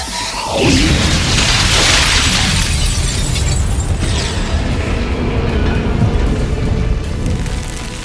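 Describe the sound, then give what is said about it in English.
Glass cracks across an entire building as monstrous creatures burst into dust. A brief falling whoosh opens into a loud, sustained crashing and shattering roar that fills several seconds without a pause. “Cracks spiderweb out across the entire building, crossing over the four demon wraith's reflections. One by one, the demon wraiths explode into black dust.”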